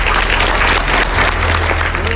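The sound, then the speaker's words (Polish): Applause for Trump as he announces that an agreement has been signed: steady, dense clapping over a low hum, with voices beneath it. “To oklaski dla Trumpa, który mówi: podpisane.”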